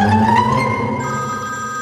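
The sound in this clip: A mobile phone rings with a loud electronic ringtone: steady, bright tonal notes that shift to a new pitch pattern partway through. It plays alone with no voices.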